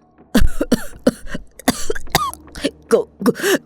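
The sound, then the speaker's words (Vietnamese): A man, tied up with a cloth just pulled from his mouth, coughs violently in a rapid, uneven series of loud, harsh, hacking bursts. “Hắn ta ho sặc sụa.”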